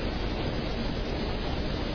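A waterfall gives a steady, even rush of falling water, a dense hiss and roar with no breaks or changes in level. No voices are heard.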